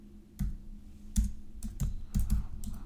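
Typing on a computer keyboard: a short run of irregular, crisp key clicks and clacks, some landing in quick pairs, with quiet gaps between the bursts.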